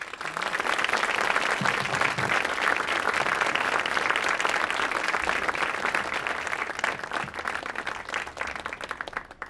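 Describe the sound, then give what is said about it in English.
Warm audience applause welcomes a guest onto the stage at an evening event in New York. Dense, steady clapping holds for about nine seconds, then thins slightly toward the end. “So I want you all to kind of put your hands together, give a warm New York welcome to Hiroshi Fujiwara.”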